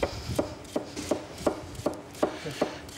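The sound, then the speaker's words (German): A knife chops food on a board in a kitchen, with many crisp, evenly spaced thuds in a steady, quick rhythm and no talking. “Finger beim Schneiden immer gerade halten, dass da das Messer geführt wird.”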